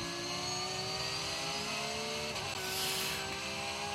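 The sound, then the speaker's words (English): Porsche 911 race car engine heard on board during the Bathurst 12 Hour race, a loud, continuous, steady drone with a brief dip midway before the roar carries on; no voices. “on board here with King in the 911 Shell V-Power Motorsport Park Porsche”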